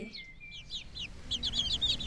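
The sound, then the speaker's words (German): Young chicks cheeping in a quick run of many thin, high-pitched peeps. The peeps are faint and sparse at first, then grow busier and denser toward the end. “den netten Küken. Sind die nicht niedlich?”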